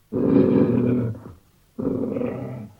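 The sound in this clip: Lion growling as a sound effect in a children's story: two long, deep, rumbling growls, each about a second, separated by a short pause, with no talk.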